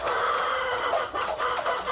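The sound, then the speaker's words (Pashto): Dense, continuous clucking from about a hundred chickens kept in a small raw mud-brick coop in one corner of an old mud house courtyard in a village, with no voices. “دغه چرګان د یاد شوي کور د انګړه په یوه کونج کې له خامو خښتو څخه په یوه کوچنۍ جوړه شوې خونه کې ساتل کیږي.”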